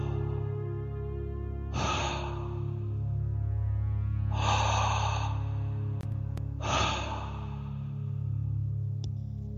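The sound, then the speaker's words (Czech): Slow, deep breaths drawn in during a guided breathing exercise: three long, airy inhalations spaced a few seconds apart, over a soft, steady droning background. “Pomalu a zhluboka dýchej. A opravdu zhluboka, opravdu hluboký nádech.”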